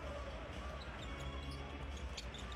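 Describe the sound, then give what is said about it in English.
A basketball is dribbled on court during an NBA Raptors game, with faint rhythmic bounces under steady crowd noise. “Front court come the Raptors. Van Vliet on the bounce.”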